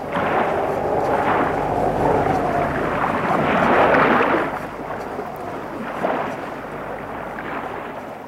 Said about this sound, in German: Jetzt hat das Schiff gewendet. Fahren wir wieder zurück auf das offene Meer?